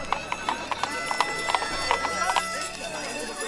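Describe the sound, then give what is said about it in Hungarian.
Hooves of a few donkeys pulling a cart clip-clop in a quick, even rhythm of many sharp beats, fairly faint against a soft background. “Nézd! Ott pár csacsi húzza!”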